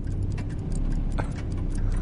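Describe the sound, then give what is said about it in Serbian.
Soft, rapid ticking of a small watch mechanism, many faint regular ticks running steadily throughout over a constant low rumble. “Izvadio sam sat. Ali nisam imao šibicu.”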